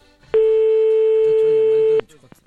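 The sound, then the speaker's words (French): A telephone line tone sounds while calling a restaurant in Rambouillet, one steady, loud, pure beep lasting under two seconds, with faint voice sounds beneath its end and just after. “C'est parti, on appelle un restaurant, allez à Rambouillet.”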